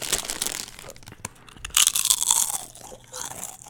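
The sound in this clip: Crunching of Miss Vicky's potato chips: a dense run of crisp, crackly bites and crinkles, with a louder flurry of crunches near the middle and no talk over it.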